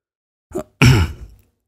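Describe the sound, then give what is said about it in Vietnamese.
A man clears his throat alone: a short, soft first burst, then a longer, louder rasping one that fades out, with no talk. “Chu Vĩnh Bình đằng hắng một tiếng.”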